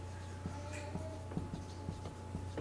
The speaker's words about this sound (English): But I am going to write a couple dates up on the board.